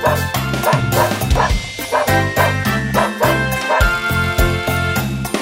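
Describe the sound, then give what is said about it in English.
A voice imitates a dog barking, giving quick rhythmic woofs in repeated short groups over steady, beat-driven music with a low bass line. “Look, I'm a dog. Woof, woof, woof.”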